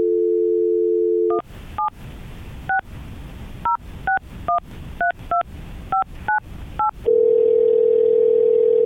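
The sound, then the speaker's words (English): A steady telephone dial tone hums, then a quick, irregular run of keypad touch-tone beeps dials out a call. A loud continuous tone follows and holds to the end, with no voices. “what we're going to do is get Cherie on the line.”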